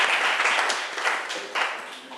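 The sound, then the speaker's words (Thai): Students in a classroom clap for a classmate who has just answered a question: a short run of fairly light, uneven clapping that stays steady and then eases slightly toward the end. “เก่งมากค่ะปรบมือให้เพื่อนหน่อยค่ะ”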